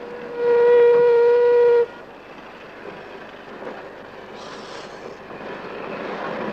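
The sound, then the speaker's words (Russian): Freight train loaded with timber arriving at a station: one long, loud, steady horn blast, then a quieter continuous low rumble and rattle of the rolling wagons. “На станцию прибывает состав с лесом.”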